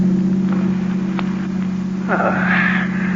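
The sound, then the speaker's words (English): A car engine drones steadily as the car drives down the coast toward New York, a continuous low hum with faint background noise and no clear changes. “And later, as you're driving Neil down the coast toward New York...”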